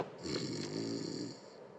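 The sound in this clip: A man asleep on a sofa snores once: a single drawn-out, rattling breath with a buzzy low drone, faint and alone, swelling and then fading over about a second and a half.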